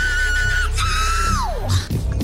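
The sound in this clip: A sampled scream from a 1991 funk song, used as a recurring effect: a sustained high cry holds steady, then slides sharply downward in pitch over a loud, dense music backing.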